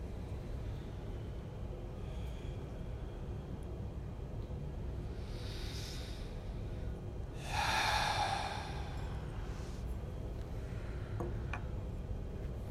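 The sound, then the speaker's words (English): Deep breaths drawn in through the nose and let out through the mouth during a meditation session: a few soft, breathy rushes, with one louder exhale near the middle, all faint against a quiet background. “We take three deep breaths. In through the nose, out through the mouth.”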